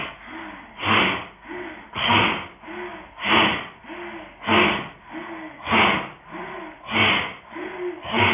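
Forceful rhythmic breathing during a yoga breathing exercise done with the tongue stuck out: many loud, breathy exhalations repeat at a steady pace of about one per second, with softer breaths between them and no talking.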